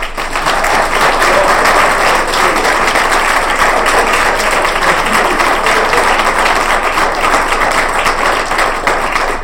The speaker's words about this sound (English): He's done a great job, and I think we should just give him a hand.